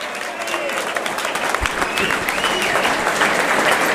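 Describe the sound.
Audience applause for a team that has just qualified for the final four of a tournament: dense, steady clapping from start to end, with crowd noise mixed in.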